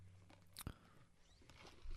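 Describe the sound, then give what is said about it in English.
Mountain Dew Baja Blast is sipped from a cup: one brief, sharp slurp, very faint, with a few soft mouth sounds around it. “Baja Blast. This one is just in a cup, so you're just going to hear me sip.”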